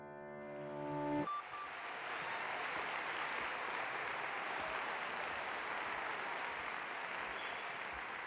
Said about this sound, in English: alltså nu applåderar de ju ganska länge här